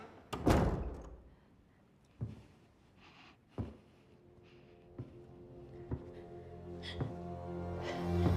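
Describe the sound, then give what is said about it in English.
Someone entering a princess's alcove brings a series of dull door thunks and thuds, a heavy one first and then several lighter, spaced knocks over about eight seconds. “She turns at the sound of someone entering.”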